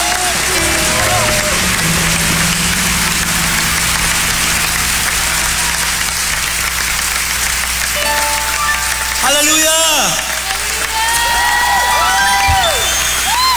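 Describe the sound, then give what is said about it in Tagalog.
A church audience applauding loudly, a dense, steady wash of clapping with shouting and cheering voices rising over it. “Sige nga, palakpakan natin na malakas ang Panginoon.”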